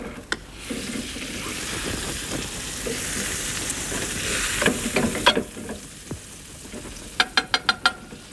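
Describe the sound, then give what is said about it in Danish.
Butter sizzles and browns in a frying pan, giving a steady, dense frying hiss that swells slightly midway. A few sharp, crisp clicks punctuate the sizzle toward the end. “Jeg skal lige have det smør på panden først, for så kan vi vist nå at få det til at brune.”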